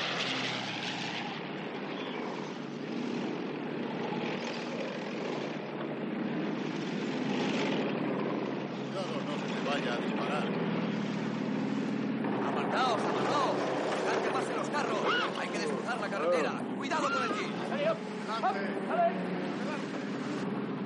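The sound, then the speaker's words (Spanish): Helicopters flying over a military camp where tanks move about, in a 1970 war film: a steady, loud engine and rotor drone fills the whole stretch, with a voice speaking over it. “Luego, los tanques avanzan de un lado a otro del campamento, así como varios helicópteros sobrevuelan el cielo.”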